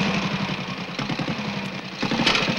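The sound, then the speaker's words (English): A three-wheeled truck's small engine idles after a kickstart with a steady low, throbbing rumble. Rapid, even pulses run through the whole clip and swell slightly near the end. “gets into the cab of the three-wheeled truck. Grabbing the handlebars, he kickstarts it.”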